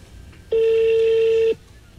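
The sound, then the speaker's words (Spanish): A single steady telephone tone plays while a call is being transferred. It is a clear, unbroken mid-pitched beep lasting about one second, heard alone on a quiet line. “Su llamada está siendo transferida al...”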